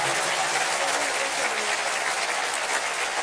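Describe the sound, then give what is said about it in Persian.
Sustained applause from a crowd at a religious gathering, clapping in honour of a devoted servant of Imam Ali. The clapping is dense, steady and unbroken throughout. “به افتخار خودت دست بزن به نوکر امیرالمومنین.”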